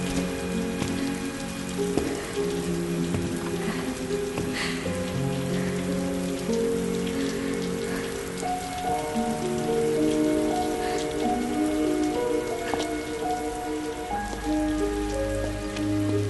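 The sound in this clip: Rain falls steadily outside a garage, a dense, even patter that continues unbroken throughout, with soft sustained tones underneath and no voices.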